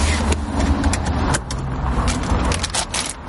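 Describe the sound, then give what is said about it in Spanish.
A car drives off, its engine and road noise forming a steady, loud rush that holds nearly unchanged from start to finish. “Más tarde, Samantha y Cyril suben al coche para marcharse.”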